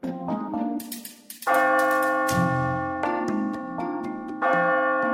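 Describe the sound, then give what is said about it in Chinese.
A village church bell striking eleven: a few resonant, deep strokes, each ringing into long, humming tones that overlap and sustain between strikes, loud and alone with no talk. “村中教堂的大钟敲过了十一下”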